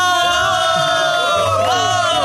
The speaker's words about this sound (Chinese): 为李天欢呼呀！他考试第一名